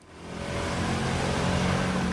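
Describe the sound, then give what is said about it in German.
Vehicles rolling along narrow streets lined with half-timbered buildings in a traffic-calmed town centre, driving faster than walking pace. A broad, steady road rumble swells over the first half-second, then holds loud and even to the end. “Die Innenstadt von Wächtersbach, enge Straßen, viel Fachwerk und eine verkehrsberuhigte Zone, in der Autos eigentlich nur Schrittgeschwindigkeit fahren dürfen. Tun sie aber nicht, es wird deutlich schneller gefahren als erlaubt.”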